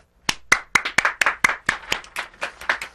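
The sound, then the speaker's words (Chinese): Hands clapping firmly in a quick, slightly uneven series of about a dozen sharp, crisp claps, fairly loud and heard alone with no talk. “你说要用手用力拍拍手哈”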